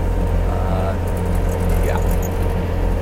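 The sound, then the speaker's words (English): The engine of a Bobcat skid steer loader runs while it drives slowly, a steady, loud low drone with a constant hum that barely changes throughout. “I don't know what's the top speed in this bobcat, in this skid steer. I don't imagine that it is very fast, because I am definitely not moving very fast.”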